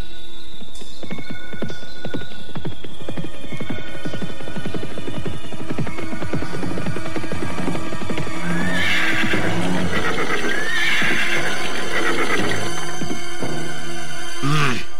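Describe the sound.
Galloping hooves of two ridden horses clip-clop in a fast, steady rhythm, followed by loud, shrill neighing and whinnying as the horses approach.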